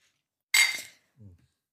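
Beer or water glasses clink together in a toast: one bright, ringing hit that fades quickly, then a shorter, fainter low sound.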